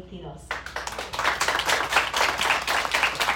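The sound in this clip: Applause for the outgoing festival representative at a Fiestas de las Flores candidate presentation. It bursts in abruptly after a brief voice and carries on as lively, uneven clapping.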